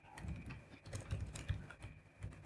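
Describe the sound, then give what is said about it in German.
Keystrokes tap on a computer keyboard, a faint, irregular run of light clicks with small pauses between short bursts and no voices. “Sprach's und tippte was anderes.”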